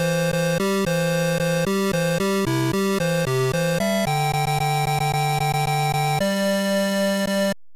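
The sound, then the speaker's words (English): An electronic theme tune plays on a computer game's title screen, where difficulty and number of droids are set. Buzzy, synthetic square-wave tones step quickly between notes, then settle into longer held notes. It stays loud and steady throughout, with no voices. “And it plays the theme song, which sounds like this.”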